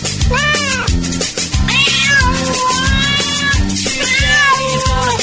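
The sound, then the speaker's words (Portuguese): A cat in heat meows in several long, drawn-out, wailing cries over a loud, steady, thumping dance beat. “Esse gato tá no cio, né?”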